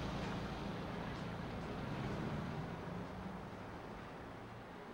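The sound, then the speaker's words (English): A car drives away on an empty road, a quiet, steady rumble of engine and tyre noise that slowly fades toward the end. “Don watches the car drive away.”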